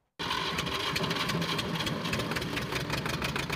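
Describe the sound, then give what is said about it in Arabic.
Diesel (mazut) power generator running for a grain-sifting workshop, giving a loud, steady mechanical drone with a dense rattling texture that starts abruptly and carries on without pause. “مع كل تشغيل لهذا المولد تبدأ على العم أبو إبراهيم كلفة جديدة”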